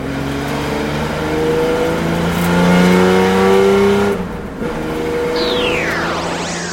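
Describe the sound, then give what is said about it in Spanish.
A loud car engine revs with sustained droning tones that shift in pitch, dips briefly partway through, then returns with sweeping engine tones until the end. “Y así puede que tu coche termine sonando así.”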